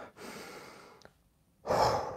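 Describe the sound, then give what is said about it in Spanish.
Slow breathing in and out during a relaxation exercise: a long, soft, breathy pass, a brief pause with a faint click, then a louder, fuller breath. No one speaks. “Y otra vez, puedes inhalar y exhalar.”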